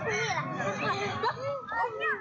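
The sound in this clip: Children chasing one another and laughing on a street in Minning town at sunset, a lively mix of high-pitched giggles, shrieks and chatter that carries on without a break.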